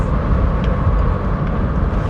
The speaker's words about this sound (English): So I'm recording this in my loud ass car